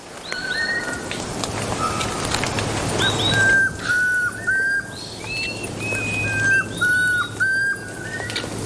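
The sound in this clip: Song of a ground-foraging antbird in a forest: a series of clear, whistled notes, many of them short and falling, repeated at an unhurried pace over a constant low background hum.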